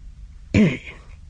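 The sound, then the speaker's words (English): A man clears his throat once in a short, gruff, voiced rasp lasting a fraction of a second against a quiet background. “He cleared his throat.”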